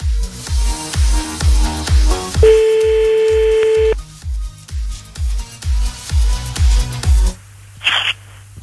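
Ringback music playing down a telephone line while a call connects: a rhythmic thumping beat, a sustained tone in the middle, then the beat again before a burst of static.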